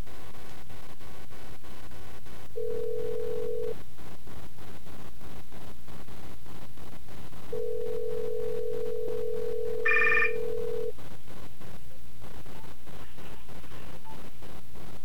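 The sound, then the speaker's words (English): Telephone ringing heard down the line while calling a cell phone: two long, steady low ring tones, the second much longer, over constant loud line hiss, with a brief higher beep during the second tone. “So what we're gonna do is we're going to call my cell phone first.”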